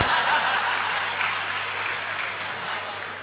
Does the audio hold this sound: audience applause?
yes